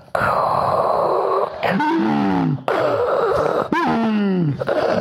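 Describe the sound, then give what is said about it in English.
A voice imitating the heavy, wheezing breath of a hand pump, four strained groaning pulses with gliding, wavering pitch, separated by brief gaps. “That's my hand pump noise. I thought that was obvious. It's pretty good. I'm not a Foley artist.”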